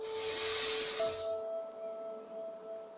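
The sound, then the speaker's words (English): Deep breath drawn in through the nose during a relaxation exercise: a soft airy hiss lasting over a second, then stopping, over faint steady background tones. “take a nice deep inhale through your nose first, just to center yourself.”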